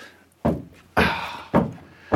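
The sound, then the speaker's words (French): A heavy cellar trapdoor gives four dull, booming thuds at an even pace, each with a short rumbling tail and nothing else in between. “Allez, c'est lourd cette trappe.”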